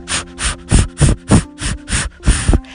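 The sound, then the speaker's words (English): Breath pushed out through the mouth during a paced breathing exercise, heard as a run of short, airy puffs in a steady rhythm, with a faint steady tone underneath. “And again, inhale through your nose and let's exhale through our mouth.”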